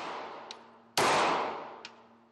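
A single loud gunshot at a shooting range in an American state, a sharp crack followed by a long fading tail, with a couple of faint clicks before and after it.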